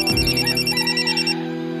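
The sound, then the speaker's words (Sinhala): A phone rings with an electronic ringtone: a bright, repeating melodic tune played fairly loud and alone, with no talk over it. “වෙලාවේ විසල්ගේ phone එක රින් වුණා.”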